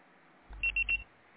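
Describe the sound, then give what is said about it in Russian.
Voicemail beep before message recording: three short, high-pitched electronic tones in quick succession, fairly faint, over a steady low hum. “Ваш звонок был переадресован на голосовой почтовый ящик. Можете оставить сообщение после сигнала.”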